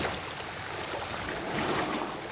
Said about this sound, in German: Das Wasser in der Höhle stieg, als die Flut hereinkam. Plötzlich wurde das Wasser deutlich aufgewühlt.